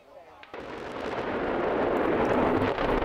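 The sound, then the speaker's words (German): The explosive demolition of a huge chimney at the former Frimmersdorf lignite power plant, blown up by the energy company RWE. A sudden blast hits just after the start, then a loud, sustained rumbling roar builds and holds to the end. “Heute hat der Energiekonzern RWE einen riesigen Schornstein des ehemaligen Braunkohlekraftwerks Frimmersdorf gesprengt.”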